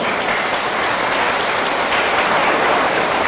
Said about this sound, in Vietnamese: hãy dành một tràng vỗ tay thật lớn